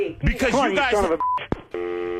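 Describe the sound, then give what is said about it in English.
Telephone keypad tones as someone dials the police: a few bright, steady electronic beeps follow a short stretch of talking. “I'm calling the cops right now.”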